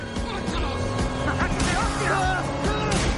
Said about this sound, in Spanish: Sale una pistola por la ventanilla de un coche. El coche les golpea lateralmente varias veces.